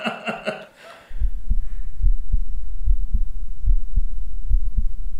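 Normal human heartbeat, a steady run of low, muffled paired thumps in an even, regular rhythm, following a brief, different sound at the start.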